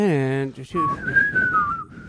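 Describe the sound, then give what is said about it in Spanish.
A person whistles a short, clear tune. The loud, wavering melody follows a brief opening sound and carries on alone for about a second. “Silbándolo bien.”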